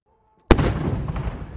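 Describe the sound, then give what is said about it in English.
A single cannon shot from a ceremonial gun salute for Queen Elizabeth II at Parliament House: one loud, sharp boom that erupts suddenly, followed by a long rumbling decay. “A gun salute and flags half-mast at Parliament House, marking the end of an era. 96 shots for every year of Queen Elizabeth II's life.”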